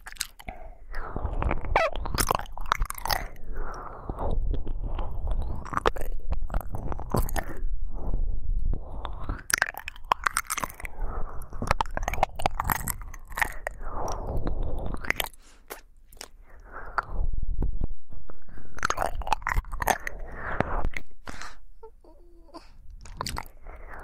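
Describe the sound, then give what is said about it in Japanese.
Biting and chewing on bread crusts makes many crisp, crunchy bites and wet chewing sounds. They come in dense bursts separated by brief pauses, fairly loud and close throughout. “お耳の方が美味しいよ。”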